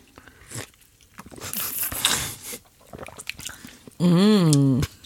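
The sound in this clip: Iced double espresso with milk being stirred with a wooden spoon, a few seconds of soft crunching and squishing as the ice shifts, followed by a brief voice.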